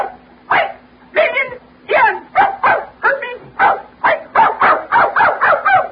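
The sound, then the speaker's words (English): A dog barks many times in quick, uneven bursts, the barks loud and clipped with a slightly yelping, voice-like tone over a low steady hum. “That's a dog. That's canine. Be quiet.”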